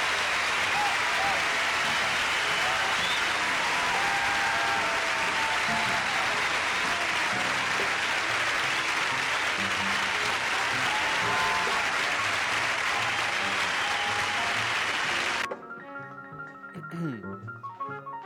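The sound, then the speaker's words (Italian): Audience applause after a blues and jazz guitar performance: dense, loud and steady for about fifteen seconds, then it stops abruptly and softer music follows. “Applausi, applausi meritati”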